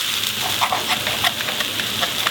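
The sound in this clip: Steak sizzling as it grills on a stand over a fireplace: a steady, bright hiss with small crackling pops scattered throughout.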